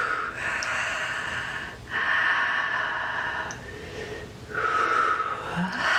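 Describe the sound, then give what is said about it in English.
Deep breaths drawn in and let out during a guided breathing practice, a soft, airy rush that swells and fades in a few long, slow waves, heard alone. “Deep breath.”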